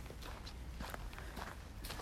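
Faint hoof footsteps of a young foal walking on a lead during groundwork training. Many soft, even steps fall in a steady rhythm with no talk.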